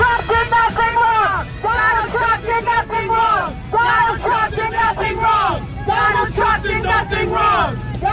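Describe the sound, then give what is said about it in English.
A crowd outside the courthouse in New York City: many loud voices shouting and chanting in rhythmic, repeated bursts, with a steady rumble of traffic underneath. “All right, that's what it sounds like outside the courthouse in New York City.”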